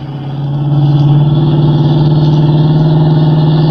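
A car engine drones loudly during a chase, a low, throbbing hum that swells over the first half-second and then holds steady and strong, with no voices.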